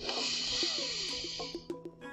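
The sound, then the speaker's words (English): A slow, deep breath in, heard as an airy, hissing inhale that lasts about a second and a half before fading, followed by a few faint soft clicks. “Join me. Breathe in”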